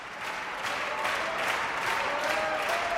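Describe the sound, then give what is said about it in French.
An enthusiastic concert audience applauds after an orchestra performance. The clapping forms a thick, steady wash that swells slightly after the opening moment and holds at an even level to the end. “le public enthousiaste. On l'écoute encore un peu ce public, allez hop, je monte comme ça.”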